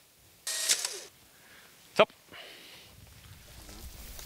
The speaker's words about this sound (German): Das heißt, ihr geht, komm, ich mach das Bild. 3, 2, 1.